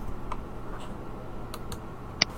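A computer button is clicked: a few faint, dry ticks spaced irregularly, then one sharper, louder click near the end, over a low steady hum.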